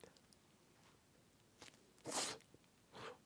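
A bite into a soft, chewy French bread roll spread with margarine. One faint, sharp crunch stands out, followed by a softer crunch of chewing in an otherwise quiet clip.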